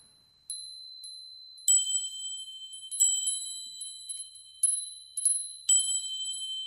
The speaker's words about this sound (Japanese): 風鈴をもらっちゃった。どこにかけよう？